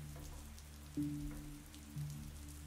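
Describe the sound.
Rain falling as a faint, steady hiss, with two brief low tonal bumps partway through.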